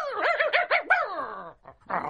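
A person imitates a dog barking, voicing a few quick warbling yelps that slide into a long falling whine, then a short pause and a brief rougher burst.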